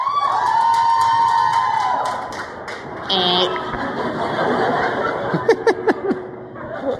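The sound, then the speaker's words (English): Audience noise at a Harry Potter trivia show: a wash of crowd voices with laughter and cheers, a short louder burst partway through, and a few scattered claps near the end. “If you think that Harry or his scar is a Horcrux, make some noise here.”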